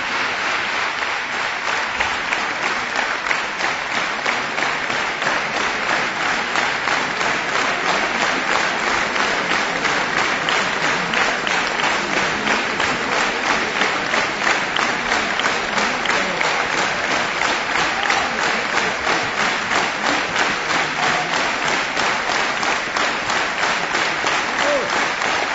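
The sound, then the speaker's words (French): An enthusiastic concert audience applauds as young performers return to the stage to bow: dense, even clapping that holds steady and loud for the whole stretch. “Très enthousiaste, vous l'entendez. Voilà, les artistes reviennent saluer.”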